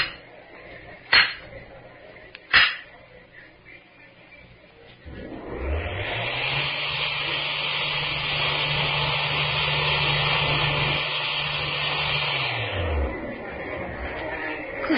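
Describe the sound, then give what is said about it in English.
Motorised whir of a hidden mine-tunnel wall swinging open automatically like a revolving stage: two sharp clicks, then a steady humming drone that rises in pitch as it starts, holds for several seconds and winds down near the end. “Like a revolving stage. When the wall is swung open like that, it looks like a curve in the tunnel.”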